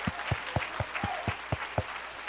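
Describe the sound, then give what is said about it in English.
Rhythmic hand clapping from a church audience during worship, about eight sharp, evenly spaced claps in unison, loud and steady with no talk over them. “Let's clap our hands into him and bless his name.”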